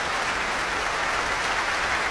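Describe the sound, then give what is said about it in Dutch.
Applause in a large concert hall after Saint-Saëns' Violin Concerto No. 3 in B minor, played by a violin soloist with orchestra: a dense, continuous roar of many hands clapping at an even level throughout. “Groot, groot applaus hier in de grote zaal voor violiste Noa Wildschut. Zij speelde samen met het Residency Orkest onder leiding van Andrew Grams. Vioolconcert nummer 3 in B-klein van Camille Saint-Saëns.”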